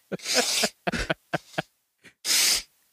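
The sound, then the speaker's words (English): Coughing from someone who snorted beer foam up the nose comes as a series of harsh, breathy bursts, a long sputter followed by shorter choppy coughs and one final loud blast. “Did you inhale the beer through your nose? I snorted the head a little bit.”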